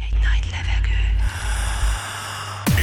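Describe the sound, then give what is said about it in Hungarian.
A deep breath is drawn in as a breathy, hissing inhale over a heavy bass music bed, followed by a sharp sweeping effect at the end. “Végy egy nagy levegőt.”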